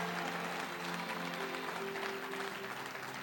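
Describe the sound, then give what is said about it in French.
A church audience applauding during a worship teaching, a continuous, even spread of clapping from many hands that stays fairly faint and steady for the whole stretch. “Ah, acclame le Seigneur.”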